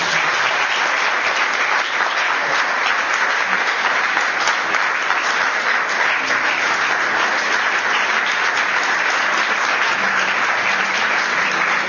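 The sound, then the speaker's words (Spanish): Steady applause from an audience during a Catholic Mass after a lay Dominican profession: a dense, continuous patter of many hands at even loudness for about twelve seconds, with no voices rising above it. “damos un aplauso”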